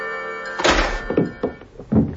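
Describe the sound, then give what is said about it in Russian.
A door kicked open with a boot lands with a heavy crashing thud, followed by a few smaller knocks and rattles. “С грохотом распахнулась отброшенная сапогом Гирина дверь.”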